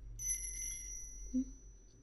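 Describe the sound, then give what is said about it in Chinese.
A small bell on a pink pet collar jingles with a bright, sustained metallic ring that slowly fades. A soft low thump follows. “这个粉粉的铃铛圈。小项圈，小东西，喜欢吗？”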